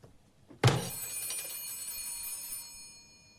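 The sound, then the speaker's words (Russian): A call bell in an office is pressed, giving one sharp metallic ding. Its bright ringing tone hangs on and slowly dies away over a quiet, low background hiss. “Зови, жми на звонок.”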